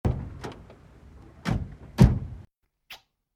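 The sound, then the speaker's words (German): A car door is opened: a few soft mechanical clicks and thumps, then one heavier thunk near the end. The sounds are fairly faint, with no talk over them. “Er öffnet ihr die Autotür”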